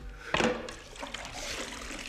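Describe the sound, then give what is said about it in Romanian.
Water splashes faintly as someone washes their face from a fragrant wooden jug. One brief splash is followed by soft trickling and dribbling. “se spală pe față într-o bărdacă de lemn mirositor”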